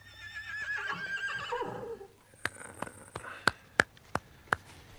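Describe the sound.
A black stallion neighs with a long, shrill whinny that wavers for about two seconds. Several sharp, separate hoof clops follow on a hard surface, each one loud and distinct.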